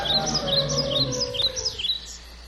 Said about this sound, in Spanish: Se escucha la corriente del agua, el trinar de los pájaros.